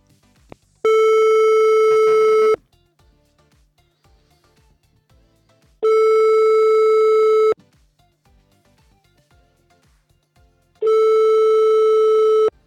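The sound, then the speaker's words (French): A telephone call goes unanswered: a steady, mid-pitched line tone sounds in three long bursts, each under two seconds, separated by longer silent gaps. “Alors, on appelle, y a un numéro, là, ça ne sonne pas.”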